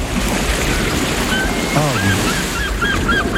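Sea waves ambience: a continuous wash of surf, with a few brief high-pitched chirping tones rising over it in the second half.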